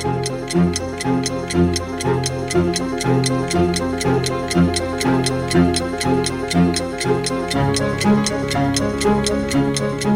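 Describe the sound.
A clock ticks fast and evenly in a long, regular run of sharp clicks that sits over continuous music.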